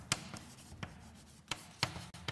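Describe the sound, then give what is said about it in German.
Handwriting on a surface while working through a probability formula in a lecture: a few short, faint scratchy strokes in uneven rhythm, with no talk over them. “Ich schreibe das mal einmal hin.”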